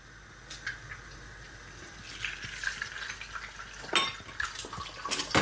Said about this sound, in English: Second egg goes in. Oh yeah. And you can hear that really nice kind of crispy crackling sound.